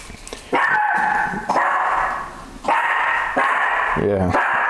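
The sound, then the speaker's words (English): A pet dog barks and yelps in a few long, high-pitched bursts over constant background noise, with a person's voice heard briefly near the end. “I'm sorry, man. That's my dog.”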